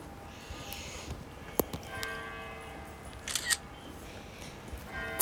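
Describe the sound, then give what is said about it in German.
A few faint camera shutter clicks snap while someone takes a quick photo, short sharp ticks standing out against a quiet background hum. “Warte mal, ich mache mal kurz ein Foto.”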